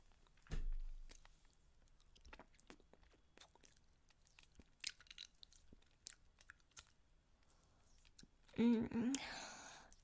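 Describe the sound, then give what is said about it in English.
Wet licking and mouth sounds: soft, sparse smacks and clicks spread over quiet stretches, with a louder moist burst early on and a voiced breathy sound near the end. “I'm just going to lick you gently at first. Get you nice and wet.”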